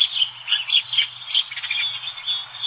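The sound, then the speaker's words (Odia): A flock of house sparrows chirps among leafy foliage, giving many quick, high, overlapping chirps in an irregular, busy stream with no voices. “ଏଠି ଯୋଉ ପକ୍ଷୀ ଗୁଡାକ ଦଳ ଦଳ ହେଇ କିଚିରି ମିଚିରି ହଉଛନ୍ତି, ଏମାନେ କି ପକ୍ଷୀ?”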